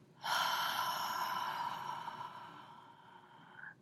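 A long, slow breath during a standing breathing exercise, in through the nose and out through the mouth: one steady, airy rush lasting over three seconds that gradually thins out, with no talking.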